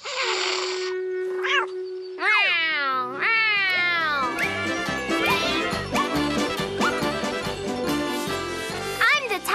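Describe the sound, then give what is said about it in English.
A little cat in need of help meows over and over, with high, wavering cries that sweep up and down in pitch and follow one another almost without a break. “Well, hello there, little kitty.”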